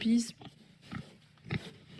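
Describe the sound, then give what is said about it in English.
Faint grunts from pigs reared outdoors on a farm, around a dozen animals, come as a few short, separate bursts against a quiet background. “Around a dozen pigs are also reared outdoors here at Ferme Dubuis.”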